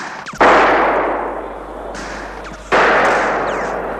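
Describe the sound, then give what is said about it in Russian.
Two distant gunshots near a forest at night. Each is a sharp report followed by a long, slowly fading echo, with the second coming about two seconds after the first. “Смотри, огоньки, выстрелы движутся в сторону, уйдут!”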